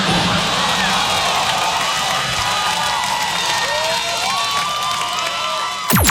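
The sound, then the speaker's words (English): Comedy show audience members shout and cheer from the crowd. A steady wash of shouting voices and crowd noise runs throughout, with a sharp burst near the end. “look at them yelling out their last name, so proud”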